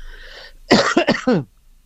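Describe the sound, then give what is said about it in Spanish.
A man with a cold coughs in a short, loud burst of several harsh coughs in quick succession after a faint background hiss, then quiet. “Perdone con la tos, pero estoy un poco resfriado.”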